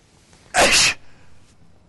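A single loud sneeze from a sheikh erupts as one sharp, explosive burst under half a second long, then gives way to faint breathy noise.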